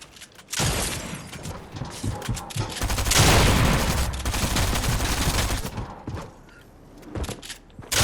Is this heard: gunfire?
yes

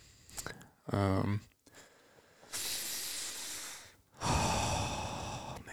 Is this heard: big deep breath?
yes

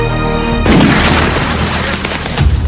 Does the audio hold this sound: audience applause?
no

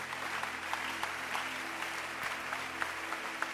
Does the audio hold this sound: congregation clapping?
yes

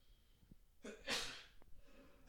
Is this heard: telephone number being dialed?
no

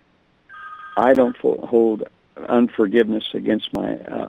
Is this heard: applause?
no

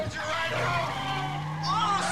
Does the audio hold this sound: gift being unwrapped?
no

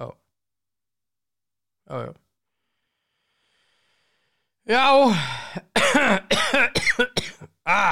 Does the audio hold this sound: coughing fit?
yes

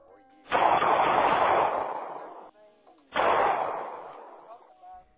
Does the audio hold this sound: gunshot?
yes

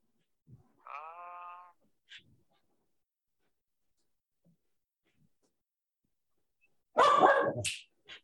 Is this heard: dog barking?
yes

